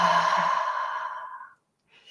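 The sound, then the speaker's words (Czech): A deep, loud exhale during a guided breathing relaxation exercise, one long airy breath that gradually fades out after about one and a half seconds. “A naposledy nádech a pořádný výdech, nahlas, úplně si ulev od všeho”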